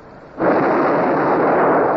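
Ship's guns from a vessel run aground, fired by division during battle: one sudden heavy boom swells into a loud, sustained rumbling roar that holds steady to the end, with no voices.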